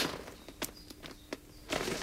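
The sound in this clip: Footsteps move around an underground bunker at Stevns Fort Museum. A few soft, irregular steps land over a steady background hiss, and a slightly louder shuffle comes at the end.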